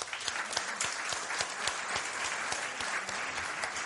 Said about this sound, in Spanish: desde aquí me gustaría agradecer con un aplauso que hayan venido y estén aquí con nosotros hasta la 1 de la mañana